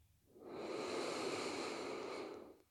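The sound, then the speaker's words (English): A single long, deep breath during a guided yoga relaxation, a soft, steady airy rush lasting about two seconds that swells and then fades. “let's take another deep breath in”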